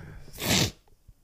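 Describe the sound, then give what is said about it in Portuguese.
A single loud, forceful sniff: one sharp, breathy burst lasting about half a second, standing alone against a quiet background. “Vai lá uma puta de uma fungadela.”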